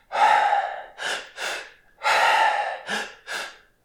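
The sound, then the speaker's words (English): A person demonstrates inhaling twice in one breath: loud, breathy airflow in two groups of three, each group a long breath followed by two shorter ones, with no talking. “Until you discover that you can actually inhale twice in one go. Like this.”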